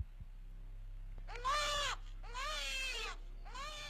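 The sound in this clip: A baby boy wakes at home at night and cries, giving three wailing, bleat-like cries with arching pitch separated by short pauses, the last one cut off. The cries are fairly faint and heard alone.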